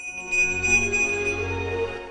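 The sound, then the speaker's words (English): A small silver bell is shaken and gives a clear, high, sustained ring over soft, low tones, quiet and without talk. “Hero Boy reaches into the box and takes out the silver bell he lost. He gazes at it in wonderment, then holds it to his ear and shakes it.”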